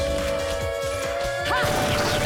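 Crashing, thwacking hits from a video game fight as a witch dodges a coffin and kicks angels away, a busy run of heavy impacts over a steady tone.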